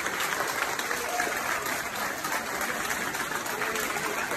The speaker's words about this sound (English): That's the sound of American firefighters being greeted in Australia at the Sydney airport.